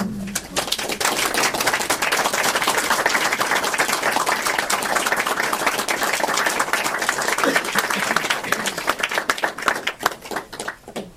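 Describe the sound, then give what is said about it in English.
Audience applause after a book launch reading: dense, sustained clapping from many hands holds steady and loud for most of its length, then thins and tails off toward the end. “Let's give her another hand.”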